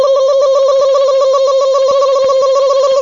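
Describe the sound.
A telephone number is dialled: a loud, steady tone holds for about three seconds and then cuts off abruptly, with faint clicks scattered underneath.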